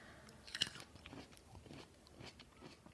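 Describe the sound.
Biting into a seedless green grape: a sharp crisp bite near the start, then a few faint, soft, wet chewing sounds heard alone.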